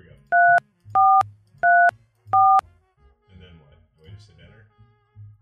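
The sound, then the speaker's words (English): Four short telephone keypad tones beep in a quick, even sequence while a 1-800 number is dialed. Each is a loud, steady dual-pitched beep, and quiet talk follows. “Show dial pad. Okay, here we go. We're going to go 1-800. Can you hear that beep?”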